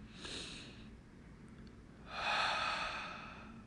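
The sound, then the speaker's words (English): A deep breath drawn through the nose and mouth as two soft, airy rushes of breath, the second longer and fuller. Quiet and alone, with no voices. “but I want you to breathe.”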